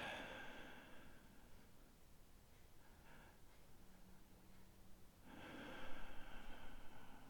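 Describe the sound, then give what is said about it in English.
Calm, slow breathing, very soft and close: a gentle breath trails off at the start, a quiet pause follows, then a longer, fuller breath rises near the end. “Just listen to my breath. And listen to your own.”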